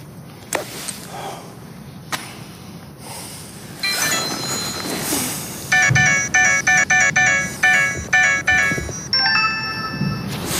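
An outgoing phone call ringing: a run of short, bright, repeated tonal pulses with a steady rhythm starts partway through, over a background of street noise.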